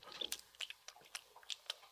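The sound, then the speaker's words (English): Faint wet mouth clicks made by moving the lips while the teeth stay clenched and the tongue stays still, a loose series of short soft smacks spaced irregularly, heard alone without talk. “literally keeping your teeth clenched, tongue still, yeah. and just moving your lips, it's a little bit of this.”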